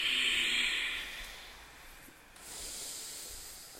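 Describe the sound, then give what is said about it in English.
Loud, full breathing during a yoga flow, a strong hissing breath at the start that fades, a quieter gap, then another long airy breath, with no talk. “And keep the flow of your breath present, full, and loud.”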